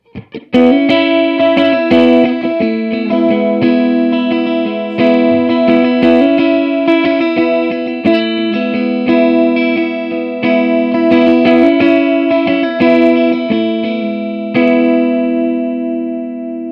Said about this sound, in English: All right, so let's move the amp farther away, and then we'll move on to the next guy.